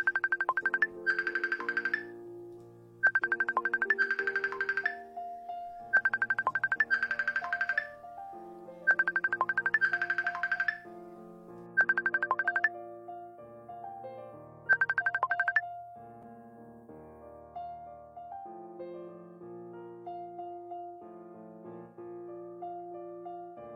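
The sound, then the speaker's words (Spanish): A telephone rings while a dropped call is being redialed: bright electronic ringtone bursts repeat several times over a looping melodic tone, which carries on softly after the rings stop. “Se le ha caído un momentito la llamada, ahora la retomamos.”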